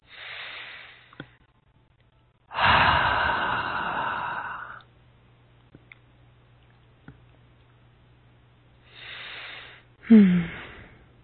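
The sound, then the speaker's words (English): A person breathes deeply in and out, a few breathy rushes of air, one long and loud, separated by quiet pauses. “A nice deep breath, please.”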